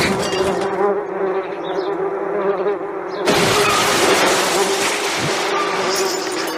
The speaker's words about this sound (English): These bees are out of control.